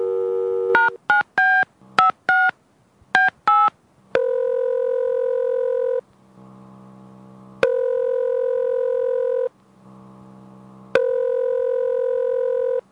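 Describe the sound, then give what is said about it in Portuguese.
A telephone number being dialed: a quick run of many short keypad tones at varied pitches, followed by three long, steady ringing tones separated by pauses filled with a low hum. “vamos ligar para os estagiários.”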